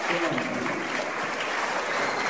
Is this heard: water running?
no